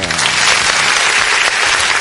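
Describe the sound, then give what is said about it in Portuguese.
Loud applause played on a hip hop web radio show as a thank-you to listeners, a burst of dense crowd clapping with a brief dip midway before resuming at full strength. “Esse aplauso é para vocês, ouvintes.”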